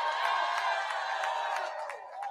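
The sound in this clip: Crowd cheering and whooping after a political speech at an Iowa caucus event, loud and steady throughout with scattered claps, easing slightly toward the end.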